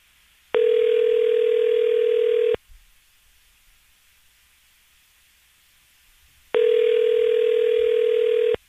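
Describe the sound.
Ringback tone of an outgoing phone call waiting to be answered: two long, steady electronic tones of about two seconds each, separated by a silent pause of roughly four seconds.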